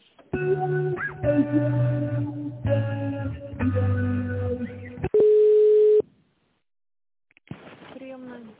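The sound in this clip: Telephone tones while a call is transferred: a few seconds of tonal electronic sounds on the line, then one steady beep of just under a second, a stretch of silence, and a voice answering.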